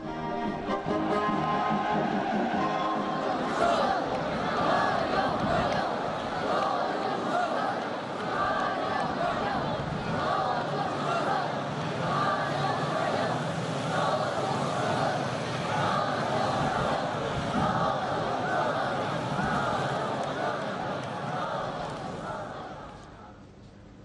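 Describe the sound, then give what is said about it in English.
Crowds lining both sides of the streets in the DPRK to welcome President Xi, a dense, steady roar of many voices and cheering that holds throughout and fades slightly near the end. “People of the DPRK lined both sides of the streets, waving to welcome President Xi's arrival.”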